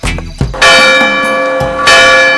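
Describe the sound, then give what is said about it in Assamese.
A clock bell strikes two o'clock: two loud, metallic strikes, each followed by a long, sustained ringing tone that hums on between them. “সেয়া 2 বাজিল।”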